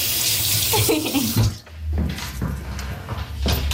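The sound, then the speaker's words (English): Hands are washed under a running tap in a small children's washroom beside a mini toilet. Water gushes in a loud, steady hiss that briefly dips midway before flowing again. “Gotta wash your hands after.”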